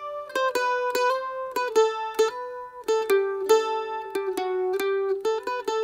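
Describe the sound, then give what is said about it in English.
A mandolin plays bright, twangy plucked notes in a lively run. Short strummed attacks and quickly repeated picking ring out over sustained tones, with no voices. “As well as the flute, you'll hear the sound of the mandolin, which sounds like this.”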